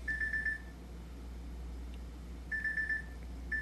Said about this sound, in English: Digital beep. Selected.